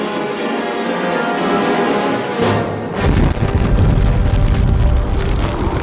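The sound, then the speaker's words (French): Explosions hit ships in the harbour at Bordeaux on a December morning in 1942. A low, steady roar swells into a loud, dense booming rumble that carries on without a break. “Sept heures plus tard, au petit matin du 12 décembre 1942, Bordeaux et ses environs se réveillent sous les explosions.”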